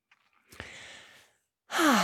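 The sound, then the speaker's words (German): A deep breath: a soft, airy inhale lasting nearly a second, followed after a short pause by a louder, voiced sighing exhale. “Atme mal tief mit mir durch.”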